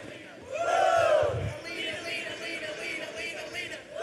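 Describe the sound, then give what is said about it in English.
An audience shouts a cheerleader cheer together in unison: one loud burst of massed voices early on, then lower scattered voices and murmuring from the crowd. “So the cheer was something like this. We're going to practice it together.”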